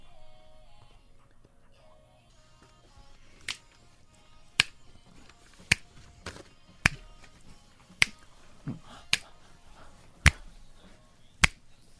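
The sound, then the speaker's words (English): Crisp finger snaps in a pop song: eight sharp hits at a steady interval of roughly one per second, standing out over quiet, sparse backing music. “That's a great snap sound.”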